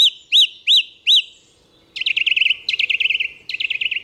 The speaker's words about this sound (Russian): В общем, певчий дрозд у нас пел так: «Зря, зря, зря, пожалеешь, пожалеешь, пожалеешь, пожалеешь».